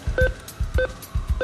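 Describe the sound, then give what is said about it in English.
Buttons pressed on an ATM keypad to withdraw cash: a few short electronic beeps, each paired with a dull tap of a finger on the keys, in a steady rhythm. “So we're at an ATM. We're getting the hitting of buttons and numbers. This is getting out cash.”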